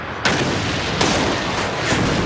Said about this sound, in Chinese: 命令炮手向逼近的马迭尔达坦克开火。 每门大炮都要立刻开火，另外我还给每门大炮指定了攻击目标。